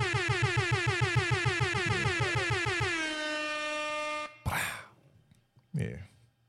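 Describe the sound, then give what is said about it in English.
An air horn sound effect blares as a train of rapid, evenly pulsing honks that merge into one sustained loud tone lasting about four seconds. Two short, breathy noise bursts follow after it cuts off. “Oh, air horns.”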